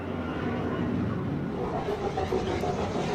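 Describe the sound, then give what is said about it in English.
A shuttle descending to land in a video game gives off a continuous, broad rumbling engine roar. It holds steady and fairly even throughout, with no voices. “So our shuttle's just coming down.”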